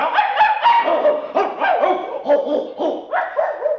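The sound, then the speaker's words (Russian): A pack of dogs barks in a loud, overlapping chorus. Many sharp mid-pitched barks and yips tumble over one another in an uneven rhythm, with no pause throughout. “собак ты не уймешь от лаю, лишь пуще всю раздразнишь стаю.”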